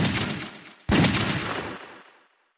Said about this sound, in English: He heard three more shots off to his left, just before something popped out of the debris to his right.